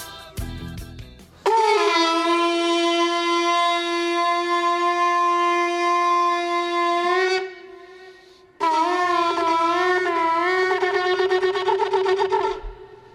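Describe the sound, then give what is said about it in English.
A shofar sounds at the Western Wall during Israeli Independence Day celebrations: two long, loud, brassy horn blasts separated by a short pause. The second blast wavers in pitch toward its end, and a brief rougher sound comes just before the first. “That is the sound of the shofar blast at the Western Wall, the Wailing Wall, the Kotel, the Wall, as Jews know it, celebrating Yom HaAtzma'ut, Israeli independence.”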